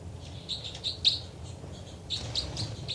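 Birds chitter in quick bursts of high, scratchy chirps, gathered around the first second and again in the last second, fairly faint over a low background rumble.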